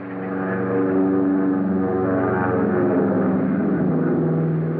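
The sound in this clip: Droning engines of a heavily laden transport airplane taking off from a runway: a loud, steady low hum with layered tones that swells in the first second and then holds.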